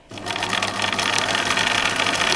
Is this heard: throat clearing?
no